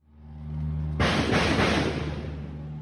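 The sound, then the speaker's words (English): A mortar shell lands during an attack around a hotel: a sudden dull, broad boom after a low hum, then a lingering rumbling roar that slowly fades. “Every so often, you can hear the sound of mortar shells landing, and you can see the people in the video flinching.”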